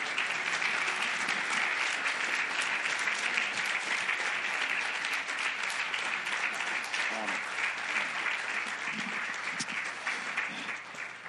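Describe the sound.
A standing church audience applauds to welcome a pastor and his wife, a loud, sustained roar of clapping that stays steady for several seconds before easing off slightly at the end.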